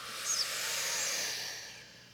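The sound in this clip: One long exhale during a breathing and voice exercise: a steady, airy hiss of breath that holds evenly for most of its length, then gradually fades toward the end.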